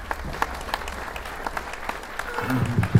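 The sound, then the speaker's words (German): Audience applause at an on-stage pitch event: steady, fairly faint clapping throughout, with a few louder low thumps near the end. “Macht mal ein bisschen Lärm!”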